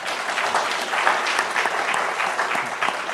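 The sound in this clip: Applause from an audience after a talk on China: dense, steady clapping that keeps going at an even level for the whole stretch, with no voices over it.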